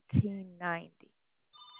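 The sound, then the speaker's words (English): A landline telephone rings with a short, steady, high electronic tone that sounds after a brief stretch of speech. “My landline is ringing.”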